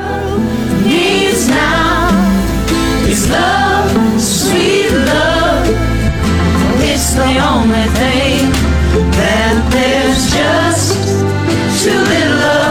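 Music from a large virtual group cover of a love song, recorded by more than 24 musicians for an online folk festival. Melodic vocal lines weave over full, continuous accompaniment at a steady loudness.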